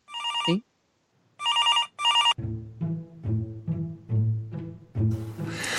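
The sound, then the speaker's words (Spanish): Electronic telephone ringing with an incoming call: three bright, high warbling ring bursts separated by a pause, followed by a lower, rhythmic repeating tone pattern. “creo que tenemos una llamada. ¿Una llamada?”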